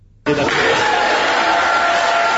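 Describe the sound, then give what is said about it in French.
Crowd cheering and shouting for joy at a court verdict bursts in abruptly after a brief quiet moment, then holds as a loud, dense, sustained roar of many voices. “La population de l'Embafoire accueille par ses acclamations et cris de joie la sentence.”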